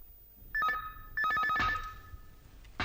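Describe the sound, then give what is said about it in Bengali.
Telephone ringing at home: two bursts of warbling electronic trills, a short one and then a longer one, each with a bright, high, insistent tone and a brief pause between them. “আব্বু telephone, আব্বু telephone.”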